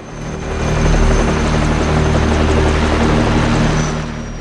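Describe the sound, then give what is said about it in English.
Helicopters landing on a beach produce a loud, steady roar of rotor thump and engine whine. The sound swells at the start, holds, and eases off slightly at the end, with no voices. “The helicopters land on the beach and US soldiers pour out.”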